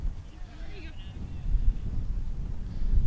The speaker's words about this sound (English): Getting chilly here as we get later into the day and that wind kicks up.